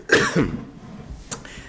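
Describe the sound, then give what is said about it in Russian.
A voice demonstrates a guttural fricative, the Cyrillic Г sound: a harsh, throaty rasp that resembles clearing the throat, then a second short, breathy burst after a pause. “тут написано такое, гортанный фрикативный звук.”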